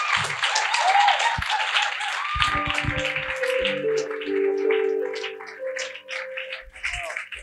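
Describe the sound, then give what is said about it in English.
An audience at a church service applauds to welcome a pastor, with sustained dense clapping and some tonal sounds mixed in, thinning out toward the end. “Put your hands together for Jesus as you welcome Pastor Prince to bless us.”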